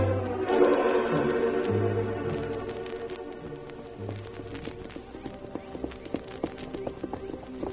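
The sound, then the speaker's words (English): Horses' hooves clip-clop at a slow walk as two railroad survey riders return to camp at day's end west of Cheyenne, a steady run of repeated hoof strikes growing clearer toward the end. “Two men of the Union Pacific Survey crew working west of Cheyenne toward the Indian settlement rode slowly back to camp at the end of a day's work.”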